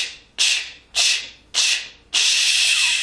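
Forceful "ch" breath exhalations from a breathing exercise: sharp, hissy pulses in a steady rhythm, the last one held longer as the remaining air is pushed out.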